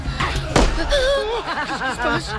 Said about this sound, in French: Un coup de feu. Quelqu'un tire au pistolet sur les Perses.